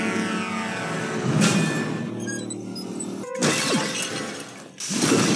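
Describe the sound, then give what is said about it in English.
Stock sound-effect porcelain smashing in a film's action sequence: a few loud, bright crashing shatters, each bursting out and then fading, over a steady tonal background. “like thunks and dunks And porcelain smash, like, from a fucking sound library”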